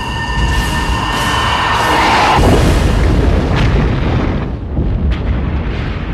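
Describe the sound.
A torpedo explosion in a film booms as a loud, dense roar that rumbles on steadily for several seconds without letting up. No one speaks.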